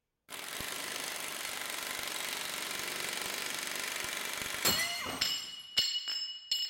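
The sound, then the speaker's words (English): An 1894 Thor bolt snaps in half under rising tension: a long, steady mechanical roar, then a sudden sharp crack and a few bright metallic clinks and pings as the broken pieces shoot out. “So it hit 245, then split in half and shot out the backside”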